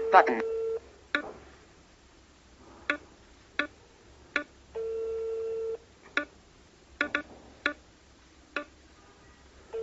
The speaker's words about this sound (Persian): من دوباره با این گوشی تماس میگیرم که یه چیز دیگه هم بهتون نشون بدم.